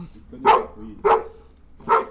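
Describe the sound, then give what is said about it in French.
A house dog barks three times, sharp and loud, each bark standing alone with short quiet gaps between them. “C'est le chien de la maison ?”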